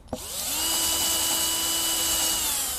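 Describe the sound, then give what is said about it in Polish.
Electric drill boring clean through a part while holes are drilled: a brief click, then a steady, loud, high whine that holds evenly to the end. “Tu chyba niestety przewierciłem na wylot.”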